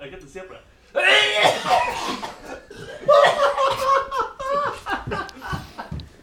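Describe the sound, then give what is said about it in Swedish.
Coughing from more than one person, mixed with laughter and chuckling. Several rough coughs and throat-clearing sounds rise and fall over continuous talk. “Är det du som hostar? Det är inte bara jag som hostar.”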